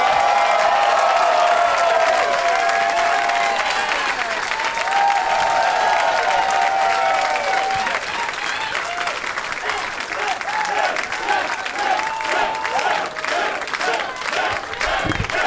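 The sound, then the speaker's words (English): A comedy show audience chants a comedian's name in a steady repeated rhythm, loud over continuous clapping and crowd noise that carries on after the chant fades. “Jacob, Jacob, Jacob. All right, so the chanting thing is catching on.”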